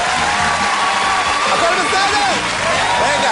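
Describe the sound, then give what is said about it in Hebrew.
An audience claps and cheers for a stand-up comedian taking the stage, a steady dense wash of applause with a voice heard over it throughout. “ערב טוב, בוא נעשה כפיים!”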